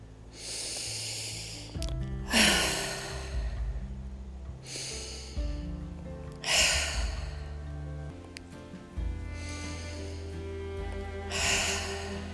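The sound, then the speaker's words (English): Three deep cleansing breaths, each a softer inhale followed by a louder, rushing exhale, spaced several seconds apart over a low, soft background. “Let's begin today with three cleansing breaths.”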